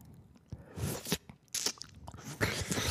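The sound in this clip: Someone bites and chews food in a few sharp, crunchy bursts separated by quieter, wetter chewing. The crunches are close and distinct against a faint background.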